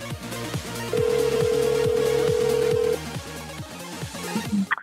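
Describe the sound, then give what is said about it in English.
A phone sounds a new-voicemail alert: one sustained electronic beep lasting about two seconds over a repeating tonal pattern, followed by a few short chirps near the end. “Oh God, we have a new voicemail.”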